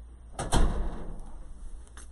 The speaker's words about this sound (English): Close the door.